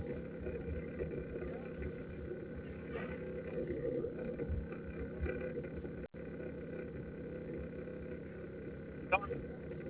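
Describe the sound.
Steady low engine drone of a car being driven, heard over a narrow telephone line, a constant idling-like rumble with faint muffled voices and small bumps through it.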